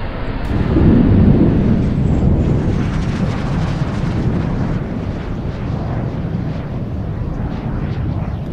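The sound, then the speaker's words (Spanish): A rocket launching with a trail of fire, a loud, deep, rumbling roar that swells early on and then holds steady and continuous to the end. “El cohete despegó y se lanzó hacia arriba al espacio oscuro. Lanzó una estela de fuego y dejó atrás la Tierra”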